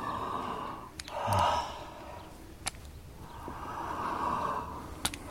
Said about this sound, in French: Respirez fort, la bouche ouverte.